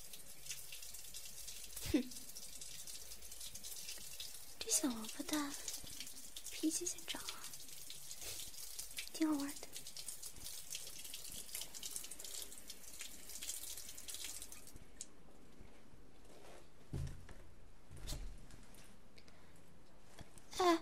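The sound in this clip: A shower runs with a steady, bright hiss of spraying water that continues unbroken and then cuts off abruptly about three quarters of the way through, leaving only faint handling noises.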